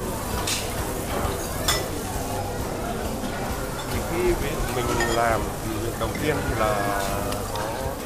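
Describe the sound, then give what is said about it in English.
Okonomiyaki pancake batter of cabbage and cooled beef tendon stock being mixed gently, giving a steady stirring and clinking of utensils against a bowl. Busy kitchen noise and background voices run throughout. “When you mix the batter, don't mix it too much. Keep the air inside, which will make the pancake more spongy.”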